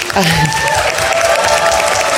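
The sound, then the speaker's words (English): Applause from an audience at a scholarship presentation for blind students: a dense, steady clatter of clapping that holds at full loudness throughout. “All right, now we can do the applause.”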